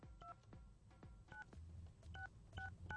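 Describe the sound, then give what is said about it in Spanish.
Touch tones of a telephone number being dialed for a prize call: several short two-note beeps at irregular intervals, faint, with soft low thumps between them. “ya marcamos, vamos a ver si nos contesta”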